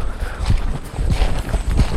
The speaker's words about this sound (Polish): Idziemy w tej chwili przez las, wokół nas wszędzie już natureza, czyli natura, natura Amazonii.